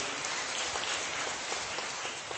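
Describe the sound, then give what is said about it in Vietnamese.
Applause from an audience at a church gathering: a steady, dense wash of many hands clapping that carries on evenly for the whole stretch, fairly faint, with no distinct single claps. “Chúng ta cảm ơn chị em một tràng pháo tay, thưa anh chị em.”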